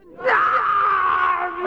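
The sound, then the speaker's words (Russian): Two people screaming, a loud, drawn-out, high-pitched wail that rises sharply, holds steady for over a second and swells again at the end, with no words. “Похоже, что эти вопли исходят от этих двух людей.”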